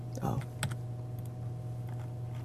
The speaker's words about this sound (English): I'll just type it at the bottom.